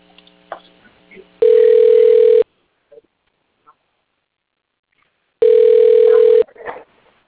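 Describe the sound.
A telephone line rings while a call is transferred to voicemail: two steady, buzzing ringback tones, each about a second long, separated by several seconds of near silence, with faint brief fragments of voice at the edges.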